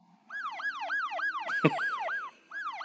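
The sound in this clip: An ambulance siren passing outside, wailing in rapid, regular rising-and-falling yelps that repeat steadily, loud and alone, with one sharp crack midway and a brief gap before the yelping resumes.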